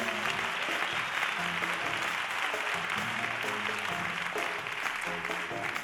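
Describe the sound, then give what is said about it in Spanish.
Applause from a theatre concert audience for a pianist: dense, continuous clapping that stays loud and even throughout, with no talk. “Al piano, un muchacho que viene de Madrid, todos los martes enseñar, se llama Juanjo, un aplauso para él.”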